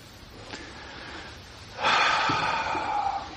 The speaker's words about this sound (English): So let's start with a couple of deep breaths.